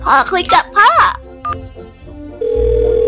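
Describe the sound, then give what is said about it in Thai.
Telephone keypad tones as a mother places a call: brief talk, then a short dialing beep, followed by a steady electronic line tone that runs to the end. “แม่กดโทรแล้วนะ”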